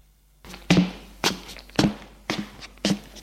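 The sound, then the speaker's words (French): Knocks on a glass door. Five sharp, fairly even raps land about half a second apart, with only faint background hiss between them and no voices. “Il frappe à une porte vitrée.”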